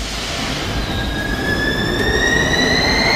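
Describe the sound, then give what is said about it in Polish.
A Warsaw metro train runs on the M1 subway line, with a loud, steady rolling rumble and high-pitched wheel squeals that hold and rise slightly. No one speaks. “Metro jeździ już na wszystkich odcinkach linii M1.”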